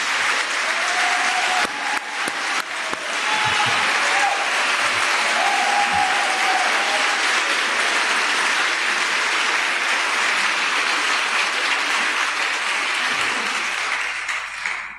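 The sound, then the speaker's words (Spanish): Audience applause in a theatre, a long, sustained wash of many hands clapping. It stays loud and steady for about fifteen seconds and eases off only slightly at the very end. “Quiero que le demos un cariñoso aplauso a Gastón Sublet.”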